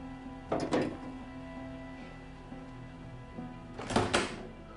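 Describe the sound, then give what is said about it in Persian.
A door being closed in a house: two dull thuds about three seconds apart, each a short burst over a quiet, steady low hum, with no talk. “درو چرا بستی؟”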